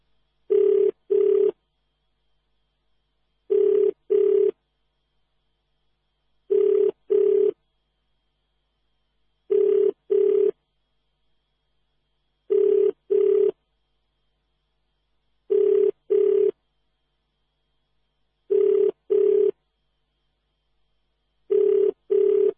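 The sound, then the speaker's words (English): A telephone rings while a call is placed, with eight evenly spaced double-burst ring cycles of a steady mid-pitched tone separated by long silences. “Now, let's see if we can raise Father Mguda and what he might be up to at this time.”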